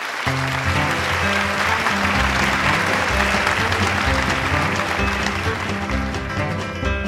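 Audience applause greets a singer announced onto a stage, a thick, steady clapping that holds without pause, with sustained low tones running beneath it.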